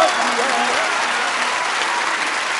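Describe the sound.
A crowd at a religious gathering claps dense and steady, a continuous wash of hand claps that holds an even level throughout, with faint voices underneath.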